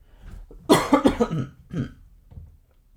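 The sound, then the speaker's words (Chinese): Coughing from a person with an irritated throat: a few harsh, loud coughs in a quick cluster, then one more short cough after a brief pause, with quiet breathing noise around them. “不行啊，今天喉咙怪怪的。哎，像我那样咳嗽也不也不是很好，”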